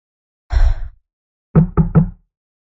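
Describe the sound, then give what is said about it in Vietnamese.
Knocking on a room door: a single dull thud, then three quick, firm knocks in a short row, each one sharp and close together, with silence around them. “Khẽ thở dài, A Hắc gõ cửa.”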